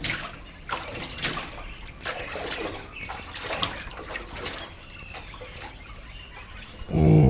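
Water splashing and sloshing as someone bathes in the early morning, an irregular, continuous wash of splashes with a louder surge at the very end.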